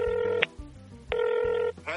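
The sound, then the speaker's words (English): A telephone ringing on an outgoing call: two steady, buzzy rings of about half a second each, separated by a short pause. “I'm calling Nicholas Cage. You're calling him? Okay, guys, it's ringing.”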